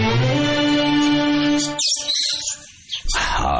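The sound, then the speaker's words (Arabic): Chirping of Australian pet birds kept in a cage on a balcony: a burst of bright, high, quick tweets follows a sustained tone, then a short lull and more chirping at the end. “جميلة العصافير دي يا أبو دنيا، جميلة قوي. دنيا هي اللي جايباها. نوع أسترالي مدهش”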